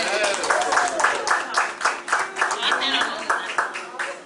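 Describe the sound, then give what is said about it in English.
Audience members clap for the finalists at a baking competition finale, a lively burst of hands with a fairly regular pulsing beat while voices talk over it. “You guys, give it up for the audience members one more time.”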